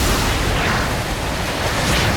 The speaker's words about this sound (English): Somewhere on board the ship, a ballast tank valve bursts open and water floods into the next tank.